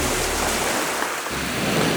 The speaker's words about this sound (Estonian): kui küll on käivitanud siin oma juttu taustaks mõnusa merelaine